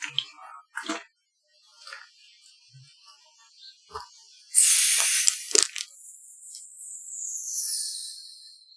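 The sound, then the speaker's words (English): A Faygo soda cracked open: small clicks and handling noises, then a sudden loud hiss of escaping gas that settles into a long, fading fizz. “It's time. To do what we always do. To crack open a Faygo.”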